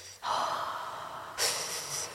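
Heavy breathing by a person, used as the sound of a virtual reality space built around sex: two long, rough, airy breaths that run into each other without a pause, the second one hissier, heard alone.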